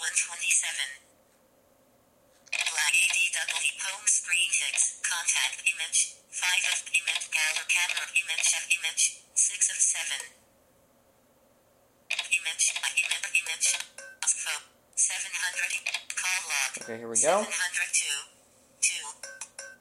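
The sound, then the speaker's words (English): Telephone tones from a test call on a phone sound in repeated long bursts separated by short silent gaps, with a brief low swooping tone near the end. “So what we're going to do is unlock the phone, and we are going to try and do this test call again.”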